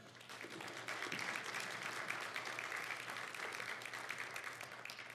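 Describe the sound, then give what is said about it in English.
Audience applause for a presenter leaving the stage, a dense, steady wash of clapping that holds at an even level for about five seconds with no voices standing out. “Give it up for Sarah.”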